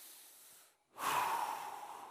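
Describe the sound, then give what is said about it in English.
A church audience takes a big, deep breath together: a soft, breathy rush, a brief pause, then a louder, hissing wash of breath that slowly tapers, with no talk. “Everybody take a real big, deep breath.”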